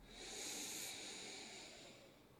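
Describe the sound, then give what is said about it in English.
One deep breath drawn in through the nose during a guided breathing exercise: a long, hissy, fairly faint inhalation that swells early and tapers off over about two seconds. “let's take a real deep breath. The deepest breath you've taken all day. In through the nose, fill up.”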